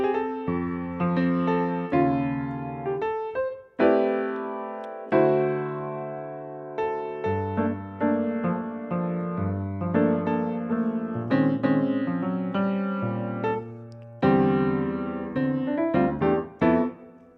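Jazz standard chord changes played plainly on a keyboard instrument, a steady run of many struck chords, each ringing and decaying before the next, with no voices.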